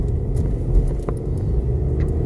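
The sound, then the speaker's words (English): A truck drives past and turns, a steady low engine rumble with faint scattered clicks and rattles over it. “Yep, there's a truck coming. And he's turning. And he's turning. And we go.”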